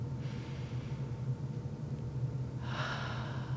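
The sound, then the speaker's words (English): Breathing in and out, heard as two soft, airy breaths separated by a pause over a faint low hum. “Breathing in”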